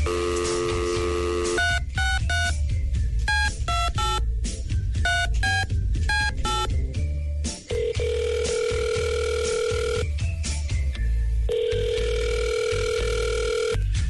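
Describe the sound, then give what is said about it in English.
Telephone touch-tone dialing to place a call: a steady tone, then a quick run of many dual-tone keypad beeps, followed by longer sustained tones. “We're going to give her a call right now”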